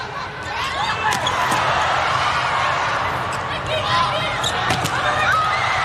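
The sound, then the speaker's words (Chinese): A volleyball serve during a China versus USA match, with the middle blocker serving. Sharp ball hits ring out among steady crowd noise and occasional laughter, while a voice talks throughout. “副攻手奥尼尔来发球”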